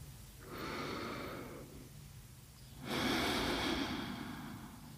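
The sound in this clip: A deep breath, faint and alone: a slow inhale, a short pause, then a longer, slightly louder exhale.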